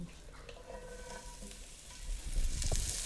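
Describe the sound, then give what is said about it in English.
Brussels sprouts sautéing in olive oil in a pan, a steady crackling sizzle that swells noticeably louder about two-thirds of the way through, with no voices. “So Brussels sprouts are going into the pan.”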